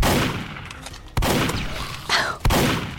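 Gunfire and a grenade explosion in a video game: three sharp, loud bangs burst out at irregular intervals over a constant, noisy background.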